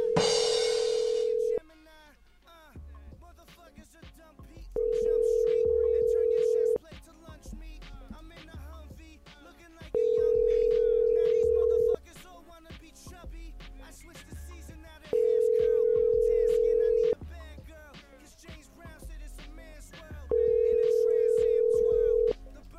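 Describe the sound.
Ringing tone of an outgoing telephone call: five long, steady mid-pitched tone bursts, evenly spaced with gaps of about three seconds, over a fainter bed of other sound.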